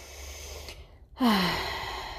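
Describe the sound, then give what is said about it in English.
A deep breath, ending in a loud audible exhale with a slight voiced tone that falls in pitch, then trails off over a low, steady background hum. “In that moment, take a deep breath.”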